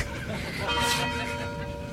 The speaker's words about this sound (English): The University of Detroit Mercy Tower Chimes ring in another session of Ask the Professor